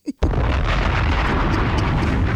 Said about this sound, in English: Bombs!